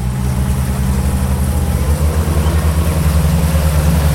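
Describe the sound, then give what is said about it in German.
A boat engine drives the craft back toward Solothurn, a loud, steady, low throbbing drone whose pulsing pattern shifts slightly partway through. “gibt wieder Gas, fährt zurück auf Solothurn.”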